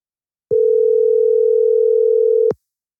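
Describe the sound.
Ringback tone of an outgoing telephone call, a single steady electronic tone lasting about two seconds, clean and alone, starting and stopping abruptly.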